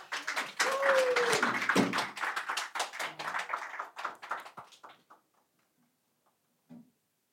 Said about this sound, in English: God's already given me some visual aids for my sermon this morning, because there's building going on down the front. There's building going on down the front.